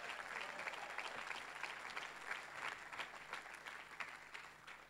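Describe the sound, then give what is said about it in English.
Audience applause welcoming a speaker at a church gathering, faint but steady with many hands clapping densely and continuously from start to finish. “I'd like you to put your hands together and welcome Joanne Russell.”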